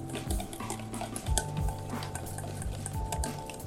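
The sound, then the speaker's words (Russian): A whisk intensively beats Dijon mustard dressing for an aioli, giving quick, irregular metallic clicks and swishing scrapes against the bowl. The rhythm is busy and moderately loud throughout, with no talk. “У нас есть венчик, и мы начинаем это все интенсивно перемешивать.”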